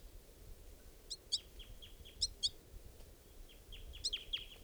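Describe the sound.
High, thin flight calls from a caged bird, in three short clusters of bright chirps over a soft steady hiss, with fainter down-slurred notes between the clusters.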